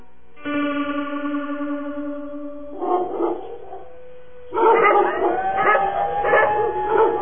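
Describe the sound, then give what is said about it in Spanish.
Dogs howl and bark at night. One long, sustained howl gives way to clusters of barks and overlapping howls, all with an echoing, effect-laden quality. “¡Ay, otra vez esos perros!”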